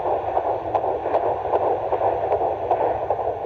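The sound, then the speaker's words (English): Fetal heartbeat on an ultrasound monitor, in the 150s beats per minute: a rapid, steady whooshing pulse repeating about every few tenths of a second over a constant muffled hiss, with no voices. “Oh, you want to hear the heartbeat? Okay. Heartbeat is in the 150s, which is normal.”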